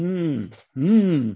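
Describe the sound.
A human voice imitates a groan like the shofar's long shevarim note: two drawn-out, low moaning tones, the second swelling slightly in pitch before falling, loud and alone.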